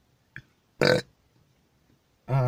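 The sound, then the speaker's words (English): A person lets out a loud burp, a short throaty burst with no talk, accompanied by a brief faint sound before it and another strong burst at the end. “not the burp”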